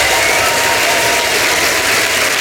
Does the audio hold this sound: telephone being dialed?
no